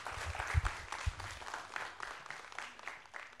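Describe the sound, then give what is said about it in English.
Audience applause welcoming a speaker onto the stage: sustained, dense clapping that holds at an even level from start to finish, with no voices over it. “So I want you to put your hands together and welcome Dr. Adam Clausen.”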